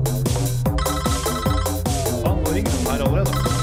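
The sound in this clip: An incoming call to a radio phone-in contest rings as an electronic telephone ringtone, a loud, bright, repeating melodic pattern that sounds steadily and without a break.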